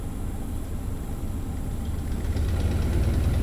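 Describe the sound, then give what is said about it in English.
An active oil well's rocking pump runs in muddy woods near a Louisiana bayou, producing a continuous rumbling mechanical drone with a steady low hum and no clear pauses. “In the middle of muddy woods, we find an oil well with a rocking pump.”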